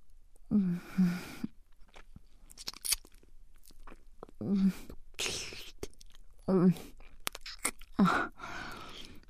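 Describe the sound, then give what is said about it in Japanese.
Deep kissing comes in a few quiet bursts of wet smacking and slurping, separated by near silence, with soft breathy voice sounds mixed in. “ほら、もっと深くまでキスしましょうね。”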